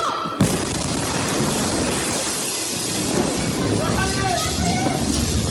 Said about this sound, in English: A cloud of crimson and fiery orange explodes out of the smoke.